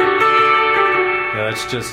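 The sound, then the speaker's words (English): Electric guitar played through too much reverb, a sustained chord ringing with a long wash of echo, with a voice briefly heard near the end. “I got too much reverb on here.”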